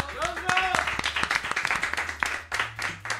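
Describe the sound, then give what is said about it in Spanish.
A small group claps as the final standings of a contest are announced. The claps are quick and uneven, with a voice heard over the first moments. “Un aplauso.”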